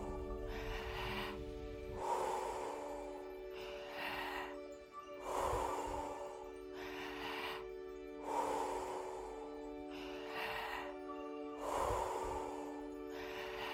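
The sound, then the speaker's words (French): Deep breaths in and out during a guided breathing exercise, each breath a soft rushing swell. They come in an even, unbroken rhythm about every two seconds, over a sustained musical tone. “Inspirez et expirez. Pas de pause entre l'inspiration et l'expiration. Fluide.”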